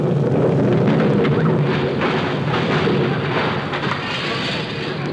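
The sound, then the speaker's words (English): A time bomb's explosion rendered as a loud, continuous rumbling roar that fills the whole stretch, dense and low, easing only slightly toward the end. “Oh, darn it. There goes that time bomb. I must have said it a little too early.”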